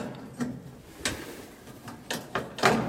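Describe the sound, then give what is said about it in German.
A glass shrine is opened beneath a grate in a 1960s church altar: a few dry clicks and knocks come at irregular intervals, fairly faint, with hush between them. “Und da sehen wir innen drin den Glasschrein mit dem ich versuche ob ich ihn aufmachen kann”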